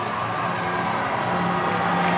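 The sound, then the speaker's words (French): An excited crowd greets the Pope on a cathedral square with a steady roar of cheering. A few higher shouts rise out of the dense, even mass of voices. “vous entendez la foule excitée”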